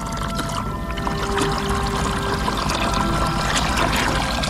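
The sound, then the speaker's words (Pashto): Water splashes steadily as someone swims in a river, a continuous rushing, trickling wash with no clear pauses and no voices. “سیند ته ورسېدې، سیند ته ورکوزې شوې او پکې یې ولامبل.”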